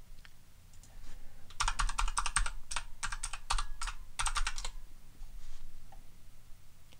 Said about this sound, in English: I haven't typed it in and checked it. Let me do that right now.